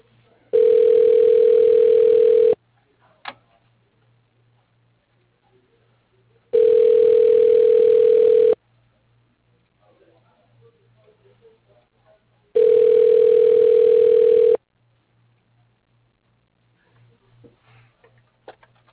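Telephone ringback tone plays while a call is transferred to another line. Three long, steady tones about two seconds each are separated by several seconds of near silence with faint ticking.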